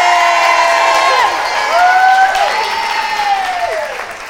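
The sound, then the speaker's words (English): Applause and cheering from an audience at a children's fashion show where young girls model fall dresses. Dense clapping runs throughout, with high voices shouting and whooping over it, easing slightly toward the end. “Everyone give it up for Dylan. Yay!”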